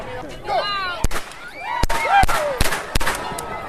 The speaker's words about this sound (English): They gave me a gun. He didn't have to wait long to shoot it.